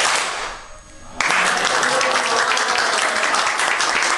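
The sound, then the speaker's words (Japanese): Ippon-jime, a group ceremonial hand clap, breaks a near-silence with one sharp, loud burst, then carries on as dense, sustained applause to the end. “一本締めでいきたいと思います。じゃあ音をよろしくお願いします。せーの。”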